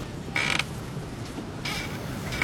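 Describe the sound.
Playground swings creak in a few high, squeaky strains, evenly spaced with quiet gaps between, the last one cut short at the end.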